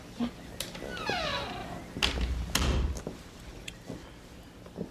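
A door handled in a house, with a short creaking sweep followed by a few dull thumps and light clicks, all fairly faint against a quiet background.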